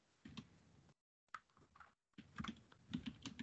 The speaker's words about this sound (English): That's your husband typing.